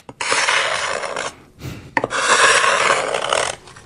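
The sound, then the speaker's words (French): Ice skate blade scraping across ice: two long, loud, hissing rasps separated by a brief pause, the second starting with a sharp bite into the surface. “Voilà, c'est le son tout simplement du patin sur la glace.”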